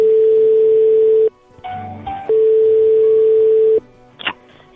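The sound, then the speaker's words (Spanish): Telephone line tones while calling a restaurant: a steady, mid-pitched tone sounds in two long stretches, separated by short gaps that hold faint clicks and brief button-like beeps. “Llamo para reservar una mesa esta noche para el equipo de La Linterna.”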